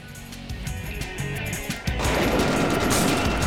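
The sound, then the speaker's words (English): Rapid machine-gun fire from a video game boss fight rattles on without a break. It grows noticeably louder and denser partway through, with no voices. “Machine guns!”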